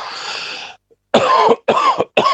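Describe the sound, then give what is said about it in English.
Coughing: three harsh, abrupt coughs in a quick sequence, loud and alone, after a stretch of breathy hiss and a brief pause. “And of course, I've got a cough at the moment too, which she thinks is bloody fatal.”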